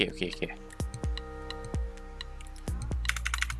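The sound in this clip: A few sharp computer keyboard key presses, made to save and run code, click out under ongoing speech and steady tonal background music.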